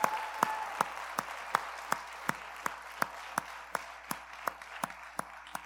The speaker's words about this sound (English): Let's put our hands together. This is a special moment.